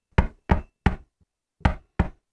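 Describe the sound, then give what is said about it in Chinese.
Knocking on a door, loud and alone: three sharp knocks, a short pause, then three more, with the last knock cut off at the end. “在这个时候，突然间有人敲门”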